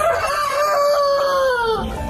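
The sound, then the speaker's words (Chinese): A rooster crows once inside a henhouse: a single loud, drawn-out cock-a-doodle-doo lasting nearly two seconds, heard alone without talk. “你看，全都是公鸡”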